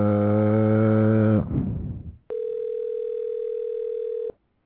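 Telephone ringing: a harsh, buzzy tone breaks off and fades, then after a short gap a steady, clean beep sounds alone for about two seconds and stops cleanly.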